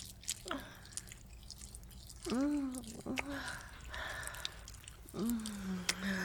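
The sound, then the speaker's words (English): Tears are licked up: soft, wet squishing and dripping mouth sounds, quiet and close, with a few low, gliding voiced murmurs between them. “Here, I'll lick them up for you so that that doesn't happen.”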